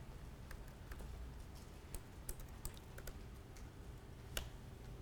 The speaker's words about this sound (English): So I just typed in man math.